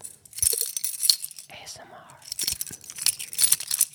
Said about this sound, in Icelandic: Nei, þetta eru lyklar.